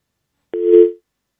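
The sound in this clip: A phone busy signal sounds after a radio call-in caller's line drops. A single short, steady mid-pitched tone follows silence and then cuts off.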